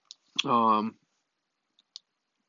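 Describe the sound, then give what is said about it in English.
Short plastic clicks of a Nintendo Switch left Joy-Con controller, which keeps sliding out, being pushed back into its rail. A few sharp clicks are separated by a brief voiced hum. “A side note, my left Joy-Con keeps sliding out. That just happened to me. That's the only reason why I brought it back up. So I'm trying to lock that back in. It just won't lock into place.”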